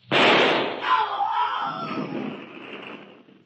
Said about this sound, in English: I don't know exactly where he is, but I'll try a shot.